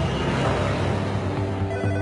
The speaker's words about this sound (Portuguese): O telefone toca.